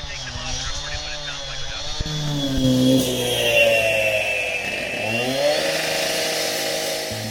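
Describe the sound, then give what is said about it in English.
A concrete saw cutting nearby, muffled by hearing protection: a steady, grinding power-tool whine that drones continuously with slowly shifting pitch and moderate loudness throughout. “Now someone has started to saw through the concrete nearby, but the TCAPs are attenuating the sound so that Sam and Katie can still hear it, but it's a much lower volume.”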